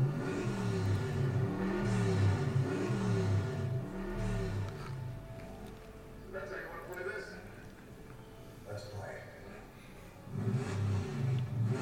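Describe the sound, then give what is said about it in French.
Engine revving of a red Corvette Stingray with an automatic gearbox: repeated low swells of engine noise rising and falling, heard under steady talk. “la voiture rouge de Michel Rodriguez, je crois que c'est une Corvette Stingray”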